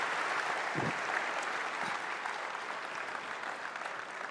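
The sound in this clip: Audience applause welcoming a guest speaker to a morning gathering in Oshawa: dense, steady clapping from a sizeable crowd, with a couple of low thumps early on, tapering gently toward the end.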